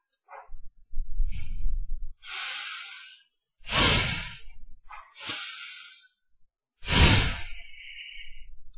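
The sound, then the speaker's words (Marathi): Deep breaths in and out during a breathing exercise before meditation: several loud, airy whooshes and hisses, some carrying low, rumbling breath noise, with short silences between them. “एक दोन दीर्घ श्वास घेऊ सोडू.”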